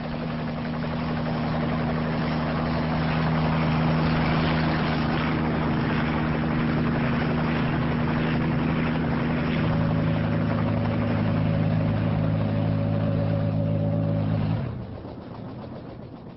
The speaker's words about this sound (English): After a while, the helicopter leaves the ocean and heads inland. Here we go. They descend towards a small landing pad situated outside a solitary bungalow.